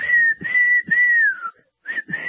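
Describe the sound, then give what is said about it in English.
Someone whistles a melody, trying to follow along with a song. Clear, sustained notes hover near one pitch, broken by short gaps between phrases, with no other sound audible. “Anybody out there good at whistling? I was trying to whistle along with that song.”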